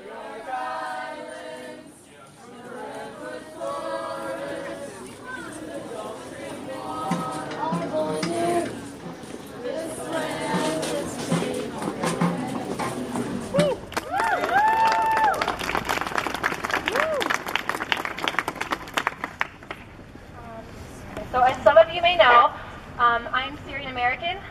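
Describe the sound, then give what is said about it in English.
Indiana University students march in protest outside the Sample Gates against the governor's block on Syrian refugees, crowd noise with voices and shouts, followed later by bursts of clapping. “This is the sound of IU students marching in protest outside the sample gates last December. They are protesting Indiana Governor Mike Pence's decision to block all Syrian refugees from settling in Indiana.”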